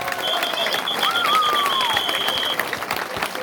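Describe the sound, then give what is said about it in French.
Applause from an outdoor crowd on the town hall square in Cilaos, Réunion, during the mayor's speech on a sunny afternoon: dense, steady clapping that runs evenly through the whole clip. “Je vous demande de vous applaudir.”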